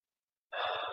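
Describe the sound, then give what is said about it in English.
A single deep, breathy sigh-like breath during guided breathing meditation, heard alone after silence, short and soft. “bring it to our breath. Breathing in deeply”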